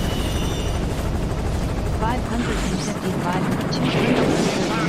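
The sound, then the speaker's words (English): Helicopter in a video game during a base-defence level with waves of enemy attackers: a dense, continuous rotor-and-engine roar that stays loud and steady throughout. “That's a helicopter.”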